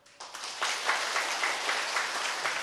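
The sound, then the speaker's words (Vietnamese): Students applauding their teacher in a pagoda to show agreement, a brief quiet opening giving way to full, steady clapping from many hands that holds to the end. “Cảm ơn những người đã vỗ tay.”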